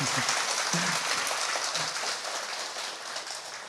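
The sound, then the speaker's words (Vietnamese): Applause from devotees at a remote rural temple during a Buddhist sermon, a soft, even patter of many hands that stays steady and slowly fades slightly, with no talk over it. “Vỗ một tràng chưa đủ, cái vinh quang này lớn lắm.”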